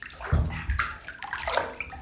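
Bathwater sloshes in a tub as a bather twists around, producing a few moderate, uneven splashes and swishes over two seconds, with no talking.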